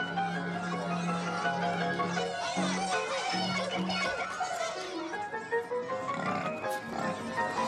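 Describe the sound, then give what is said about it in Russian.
A pig grunts and squeals as it runs off along a path and an alley, with children chasing it. The grunts are repeated and uneven, over a busy, continuous background. “Убегает свинья по дорожке, затем по аллее мимо спорту. За ней бегут ребята.”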